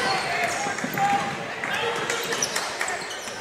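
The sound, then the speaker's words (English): A basketball is crossover-dribbled on the right wing of a court during a game, giving repeated quick bounces beneath the steady voice of a commentator. “Davis Crossover dribble, couple of times on the right wing.”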